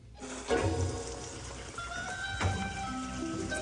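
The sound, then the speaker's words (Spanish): A washing machine starting up after liquid soap is added, giving a steady rushing, water-like wash of noise with a faint hum and a couple of soft knocks. “El niño pone jabón líquido en el lavarropas. Lo pone en funcionamiento.”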